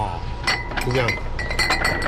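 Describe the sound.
Glass bottles of Kaoliang, a 58-degree local liquor, clink on crowded shop shelves. Several bright, ringing clinks rise over ongoing talk.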